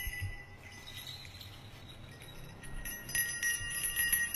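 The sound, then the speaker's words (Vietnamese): A hand bell is shaken over and over by a figure in a black ritual robe near a still bamboo thicket, giving bright, high metallic ringing in repeated bursts that grows louder and denser toward the end. “một người mặc đạo bào màu đen, trên tay cầm chuông, cứ lắc lên từng hồi len ca len keng”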